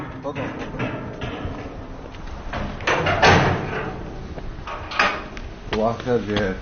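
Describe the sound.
A door at the closed museum in Palmyra is opened, with a few bumps, knocks and scraping thuds mixed among people talking.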